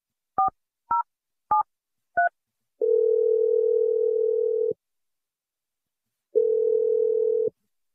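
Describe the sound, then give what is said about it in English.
A telephone is being dialed: four short two-tone keypad beeps come in a quick, even run, then two long, steady, mid-pitched ringing tones follow, separated by a gap of silence. “Dialing. Let's find out. Here we go.”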